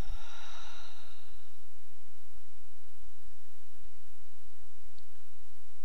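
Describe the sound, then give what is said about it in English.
A single soft, breathy rush of air opens the deep breath taken during a guided meditation, fading within about a second and a half into near silence. “Let's take a deep inhale together, and exhale through the mouth.”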